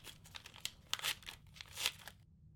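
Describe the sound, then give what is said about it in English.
A fancy envelope is torn open, with faint crinkling, crackling and tearing of paper in many small bursts that stop abruptly at the end. “Oh, what's this fancy-looking envelope with my name on it?”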